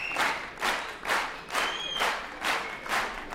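A jazz concert audience at the Palais des Congrès in Paris in 1978 claps in unison, calling for an encore: regular, fairly faint bursts come about twice a second.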